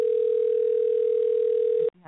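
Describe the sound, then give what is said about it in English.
A telephone dial tone sounds while calling back a caller, a steady, unwavering mid-pitched hum for nearly two seconds that cuts off abruptly, followed by a brief faint burst of sound. “So let's go ahead and call back and see what's going on.”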